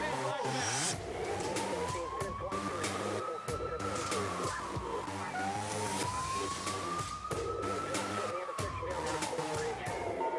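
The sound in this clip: A police car siren wails near a heavily guarded house, its tone sweeping up and down in two long cycles over a dense, steady background of noise.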